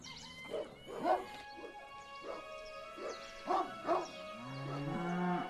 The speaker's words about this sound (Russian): Воистину смешались вместе люди, кони и коровы.